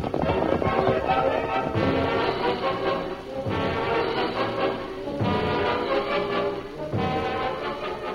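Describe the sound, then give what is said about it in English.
Horses galloping down a hillside, a steady rapid drumming of hooves over a dense, noisy rumble that stays loud throughout, dipping only briefly between bursts. “the Lone Ranger and Tonto rode down the side of the hill and arrived at the first wagon”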